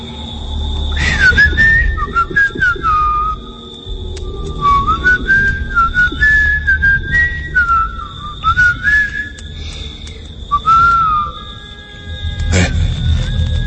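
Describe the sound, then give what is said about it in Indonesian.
A person whistling a wandering, meandering tune that rises and dips in pitch, fairly loud over a steady background noise with a thin high hum. “Dan sesekali mengisi kekosongan dengan bersiul. Entahlah, tiba-tiba saja, secara tak sengaja aku bersiul.”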